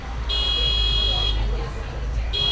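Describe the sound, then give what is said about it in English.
An alarm buzzer going off in a steady, high-pitched electronic tone, one long burst then a second starting near the end, with voices underneath. “Oh, the alarm. Oh, shit. Yeah. Oh, it's going to keep going.”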